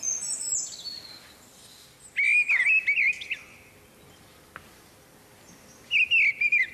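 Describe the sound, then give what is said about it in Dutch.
A mistle thrush sings loud, clear, fluting whistled phrases. Three short bursts of song are separated by quiet pauses, and there is no other sound. “De grote lijster, nu volop te horen.”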